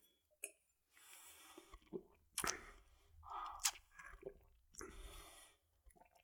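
Faint wet mouth noises from someone sipping and tasting a strong, nearly 100-proof banana-flavoured liqueur: many small slurps, smacks and swallowing sounds in an irregular pattern, with no talk.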